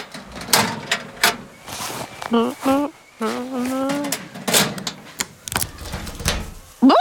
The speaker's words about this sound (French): il faut mettre tes affaires dans un petit casier que l'on va fermer à clé.